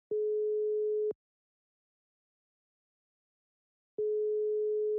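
Ringback tone of an outgoing telephone call: two steady one-second beeps at a single mid pitch, separated by a long silence.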